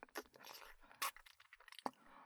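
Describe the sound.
Biting and chewing, faint wet crunches and clicks in an irregular run, with two sharper bite sounds standing out, quiet and with no talk.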